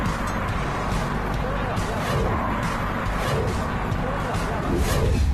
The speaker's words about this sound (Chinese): 请你仔细观察这个路面上行驶的车辆